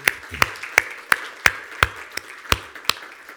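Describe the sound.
Hand clapping welcomes a speaker, heard as a steady, evenly spaced series of sharp, loud claps with no voices over them.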